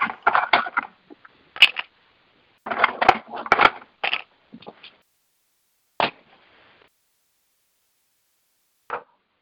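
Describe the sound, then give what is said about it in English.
Ice chips crunched between the teeth: sharp, brittle crunching bursts in irregular clusters, busy at first, then thinning to a few isolated bites separated by silence. “What are you eating? Tater chips? Mm-mm. Ice chips.”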